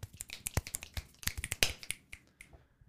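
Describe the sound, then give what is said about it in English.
Finger snaps in a jazz club music segment: a rapid, uneven run of many sharp, crisp clicks, loud and alone with no voices, thinning out toward the end. “Here's a snapping moment, which will be followed by a brief didgeridoo moment.”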